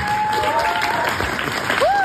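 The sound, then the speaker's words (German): Live audience applause at an on-stage evening event, a steady, fairly loud wash of clapping with a thin whistle-like tone running through it. “Und das ist nicht das eingespielte Publikum aus deinem Gerät. Das ist echtes Publikum.”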